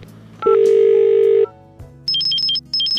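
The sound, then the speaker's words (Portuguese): Telephone tones while calling someone: a single long, steady tone, then after a short pause a rapid series of high beeps alternating between two pitches. “Melhor ligar para a Rosa. Ok, vamos.”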